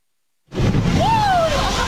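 Gas cylinders exploding in a fire at a gas dealer: sudden loud blast after a moment of silence, then a sustained, heavy roar with a thin wavering whistle rising and falling through it.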